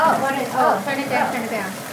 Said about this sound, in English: Overboiling.